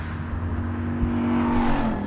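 Car engine noise from a driving video game: a steady, droning whir with a low hum underneath holds evenly throughout, with no voices.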